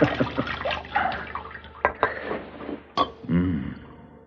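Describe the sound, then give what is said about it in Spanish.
Water poured from a container over a person's head while their hair is washed, heard as a few splashing, dripping bursts of moderate loudness with uneven spacing. “Luego coge un recipiente y le vierte agua en la cabeza.”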